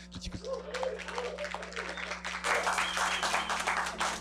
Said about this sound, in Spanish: Y qué bueno que ahora tenemos la presencia de los chicos de la Prepa de Jalapa, a quienes pido un aplauso, por favor.